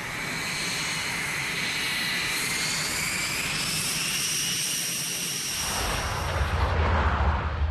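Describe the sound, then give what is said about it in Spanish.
A Lockheed U-2 reconnaissance jet flying overhead at over 20,000 metres produces a steady engine drone with layered whining tones over a broad rushing roar, the low rumble swelling near the end. “Un avión de reconocimiento Lockheed U-2 sobrevuela con frecuencia la Unión Soviética a más de 20.000 metros de altura.”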